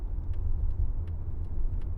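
A car is driving, giving a steady low engine and road rumble heard alone throughout. A few faint light clicks sit above the drone.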